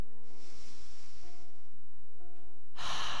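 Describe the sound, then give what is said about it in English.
A slow, deep inhaled breath taken during a guided meditation, heard as a soft airy hiss over faint sustained tones and ending with a sudden louder rush of air. “Just take a nice big deep breath in.”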